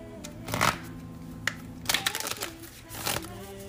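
Tarot cards shuffle in a few quiet riffling bursts, soft papery rustles separated by short pauses.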